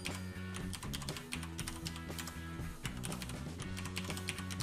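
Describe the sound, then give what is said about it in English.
A new password is typed on a computer keyboard: many quick, light key clicks in an uneven stream over low, steady background tones. “So I'm gonna erase both of those, and I'm gonna type in my new password.”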